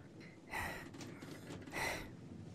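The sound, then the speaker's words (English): A woman breathes slowly as she catches her breath, drawing two soft, faint breaths with a short pause between them. “breathes in and out slowly, catching her breath”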